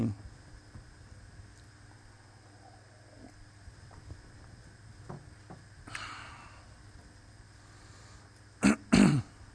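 A person clears their throat twice, two short, harsh bursts near the end after a long, quiet stretch with faint background noise.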